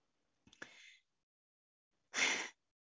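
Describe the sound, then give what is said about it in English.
A person takes two audible breaths: a quick gasping intake, then a louder, fuller breath after a short pause, with no talking. “I'm just going to take a breath.”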